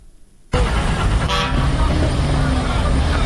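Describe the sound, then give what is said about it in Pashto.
Vehicle horns at a busy passenger car station in Kandahar, where small and large vehicles leave for Kabul: a loud, dense wash of traffic noise starts abruptly, with a short horn toot sounding over it early on. “دا په کندهار کې د کابل موټرونو اډه ده چې له دې ځای هر ورځ زرګونه مسافر په کوچني او غټو موټرونو کې کابل ته تګ راتګ کوي.”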